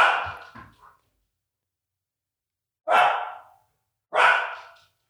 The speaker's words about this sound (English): that's what you're hearing is our dogs barking at other dogs that are walking down the street